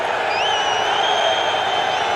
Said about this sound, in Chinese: 尤其德国球迷刚才在嘘。